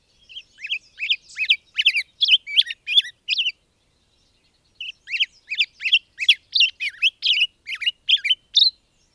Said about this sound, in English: Its song's a little bit faster and a little bit more fruity and has certain little pause notes in it. And we heard the first one that I've heard on the property this morning.